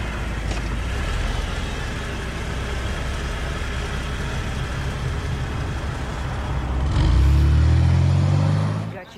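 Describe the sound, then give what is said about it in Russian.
A car being driven, its engine and road noise a steady, dense hum throughout that swells into a louder, deeper rumble near the end. “Она едет за рулем машины.”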